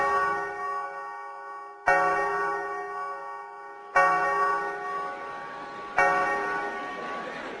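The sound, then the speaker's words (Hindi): A clock strikes half past twelve with a deep bell chime: a stroke is already ringing, then three more sound at an even pace, each ringing out loudly and slowly fading. “घंटे डेढ़ घंटे की उस जद्दोजहद के बीच आखिरकार जब घड़ी ने 12:30 बजे का घंटा बजाया”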